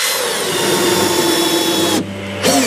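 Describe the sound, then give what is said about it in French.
Power sanding and planing of wood by children building a wooden shelter for a biowaste bin in a woodworking class: a steady, whirring motor drone with a high whine. It cuts out briefly near the end, then starts up again. “On a poncé et on a essayé d'enlever les arêtes. On a aussi raboté le bois.”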